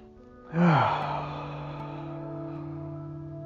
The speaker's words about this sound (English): Breathe in.